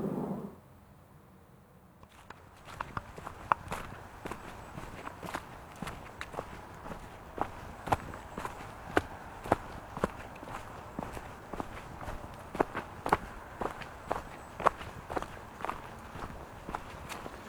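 Footsteps of a person walking downhill along a path through an autumn forest in late October, near Hirsau: a long run of many regular, crunchy steps at an even walking rhythm, starting after a brief quiet moment with no talk.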